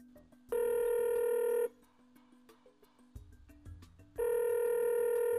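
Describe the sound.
Ringback tone of an outgoing phone call: two long, steady, bright electronic ring bursts separated by a quieter gap with faint clicks and line noise, and no talk.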